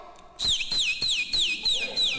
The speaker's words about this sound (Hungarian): Melyik az a bolond herceg? Nem látod? Az, aki ott fütyül.